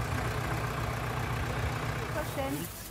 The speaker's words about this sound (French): vient donner un coup de main avec son légendaire tracteur.